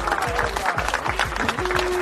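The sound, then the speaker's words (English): Crowd applause on a sports talk show about a football team's season record: dense, steady clapping that fills the whole stretch, with other tonal sounds mixed in underneath. “All right, give yourselves a round of applause.”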